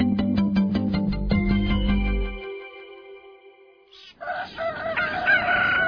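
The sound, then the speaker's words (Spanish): A rooster crows loudly in one long, harmonic call that holds and then trails off, followed by a further bright, noisy burst of sound. “¿qué no escuchas el gallo?”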